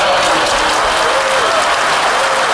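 An applause sound effect: many hands clap in a dense, even burst with a faint crowd murmur, staying loud and steady from start to finish.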